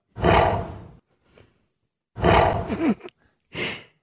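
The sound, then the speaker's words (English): A gorilla produces a newly recorded vocalisation: three loud, breathy huffing exhalations, harsh like rough sighs, separated by short pauses, with a faint soft grunt in one gap. “This is a first. We can hear this new sound that has come out of a gorilla. This is a first, this is like a moment of evolution that you'll never hear again.”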